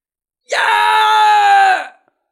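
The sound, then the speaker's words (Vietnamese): A man's loud scream: one sustained, strained cry lasting just over a second, rich and harmonic, holding a steady pitch before cutting off sharply into silence. “Đường Ngô hét lớn, ra sức dãy dụa bảo vệ lấy nguyên thần”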